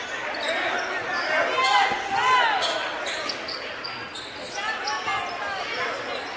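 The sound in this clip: Basketball dribbled in the front court during a game, with repeated rubbery bounces mixed with sharp, high shoe squeaks and a voice talking over the action.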